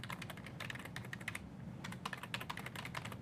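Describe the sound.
Typing a password on a computer keyboard, quiet rapid clicks and taps in a steady, slightly uneven stream, with a short lull in the middle.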